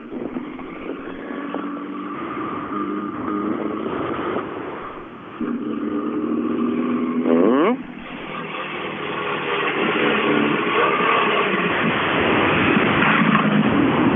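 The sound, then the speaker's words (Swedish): A rally car drives a stage with a loud, continuous engine roar. It dips briefly, then gives a sharp rev change partway through, and the drone builds steadily again toward the end. “Nu ser jag näsan på hans bil längst bort. Så mål har han tagit, men... Eh, ja, rullar gör bilen också.”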